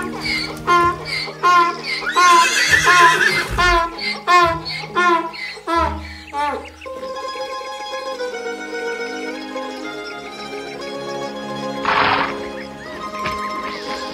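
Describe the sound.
Horse neighing in a children's fairy tale scene: a loud, wavering whinny with several pulsing bursts in the first few seconds, followed by sustained instrumental music.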